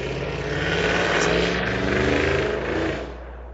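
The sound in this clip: A car engine revs in a drag racing video game, a buzzing, rough mid-pitched drone that holds loud and steady, swells slightly, then drops away near the end.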